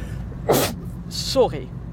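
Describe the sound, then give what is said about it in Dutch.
A single sneeze bursts out sharply with a broad hissing rush, then a brief breathy hiss and a short voiced sound follow over a low steady hum. “Sorry. Dit was een nies. Het is de eerste en de laatste keer ever dat dit in een podcast gebeurt. Maar deze kon ik echt niet tegenhouden.”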